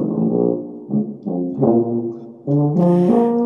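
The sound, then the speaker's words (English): A tuba on exhibit at a tuba museum in Durham, North Carolina plays a short phrase of several low, sustained notes with brief gaps between them, rich and buzzy, the last notes louder and brighter. “That is the sound of one of the exhibits in the Tuba Museum in Durham, North Carolina.”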